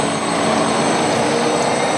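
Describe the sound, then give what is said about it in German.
An electric bus drives through city streets in Vienna. A loud, steady hum rolls on without a break, with thin high tonal whines running above it. “So klingt es, wenn ein Elektrobus durch die Wiener Straßen fährt.”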